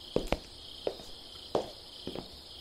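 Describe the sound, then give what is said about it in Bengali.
Crickets chirr in a pitch-dark jungle at night, a thin, steady high drone running throughout, broken by a few soft, scattered thuds. “জঙ্গলে নিশ্ছিদ্র অন্ধকার, শুধু ঝিঁঝি ডাকছে।”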